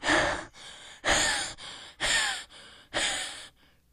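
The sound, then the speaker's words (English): Heavy, rasping breathing of a cartoon starfish character: four loud, harsh gasping breaths alternate with softer, airy ones in a slow, steady rhythm, with no talk. “Then you hear Patrick Starr's breath. He's even worse.”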